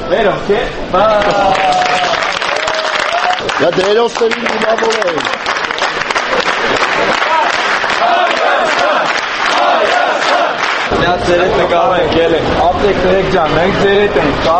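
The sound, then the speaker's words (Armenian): At Zvartnots airport in Yerevan, fans welcome Armenia's national team with loud, continuous applause under rhythmic chanting and shouting voices. “Այսօր վաղ առավոտյան Երևանի Զվարթնոց օդանավակայանում երկրպագուները ծափահարություններով և վանկարկումներով դիմավորեցին Հայաստանի հավաքականին։”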